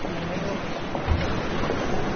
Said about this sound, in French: Voilà la mer. Et quelle mer! Très agitée,